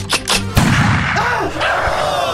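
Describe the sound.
A gunshot cracks out as one sharp, loud bang, followed by a dense noisy tail that carries on to the end. A brief voice is heard just before the shot.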